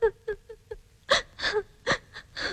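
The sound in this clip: Crying in a series of short, breathy sobbing gasps with no words. A few soft catches come first, then a run of louder, harsher sobs.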